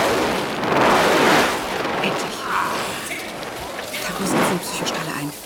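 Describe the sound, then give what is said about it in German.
Gunfire in a science-fiction radio drama, a loud, rolling barrage of booming shots and blasts that runs continuously, with surges near the start and again toward the end. “Taku, pass auf! Sie schießen!”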